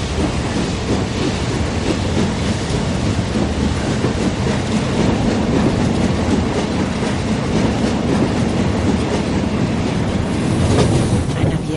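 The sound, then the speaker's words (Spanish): A train pulls away from a platform, heard from the entrance of a railway carriage. A loud, steady rumble carries a rhythmic clickety-clack of the wheels that runs on without pause. “El tren se aleja.”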